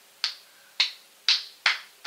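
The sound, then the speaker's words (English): Sharp hand claps in a fast-clapping technique demonstration, hands held at about a 45-degree angle: four crisp, bright smacks at a moderate pace, each with a short decay, and the onset of another at the very end. “So when you do that, you want to clap, then you want to reverse it”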